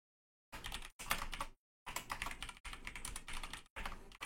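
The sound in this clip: Quick clattering keystrokes on a computer keyboard arrive in five bursts separated by short pauses, fast and even within each burst.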